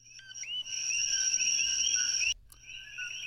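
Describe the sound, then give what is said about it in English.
Chorus of Puerto Rican coqui frogs introduced to Hawaii, a steady, loud mass of high chirping calls that carries on unbroken, drops out abruptly for a moment near the end, then resumes. “That is the sound of the infamous Puerto Rican coqui frog, which was accidentally introduced to Hawaii in the 1980s and has more than made itself at home”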